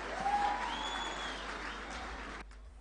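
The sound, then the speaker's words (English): Church audience clapping to welcome a performer on stage: sustained, dense applause from many people that holds steady and then stops abruptly just before the end. “Can we put our hands together and welcome Shotgun?”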